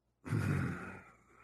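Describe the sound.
A man groans once, a short, low, voiced sound lasting about a second that trails off, fairly faint.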